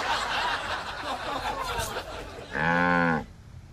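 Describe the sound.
A single drawn-out cow moo, steady and fairly loud, comes near the end after a few seconds of noisy background sound.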